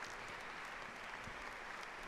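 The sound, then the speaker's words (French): Applause from a crowd of about a thousand people in a basilica in Pavia, following a papal homily. It is a faint, even spread of many hands clapping that holds steady throughout, with no speech over it. “auprès de la tombe de Saint-Augustin, le Saint-Père très applaudi, vous l'entendez, par environ un millier de personnes”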